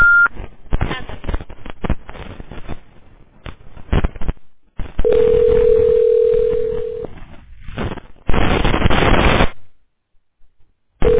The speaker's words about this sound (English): Please state your name after the tone, and Google Voice will try to connect you.